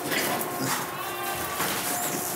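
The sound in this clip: A goat bleats while farm livestock are being let out, a wavering, nasal bleat against constant, busy background noise.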